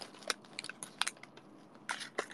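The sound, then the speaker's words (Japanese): Crinkly crackling as the wrapper of a wafer snack is peeled open: several sharp, crisp bursts spaced irregularly, with quieter rustling between them. “ウェハースをめくる。”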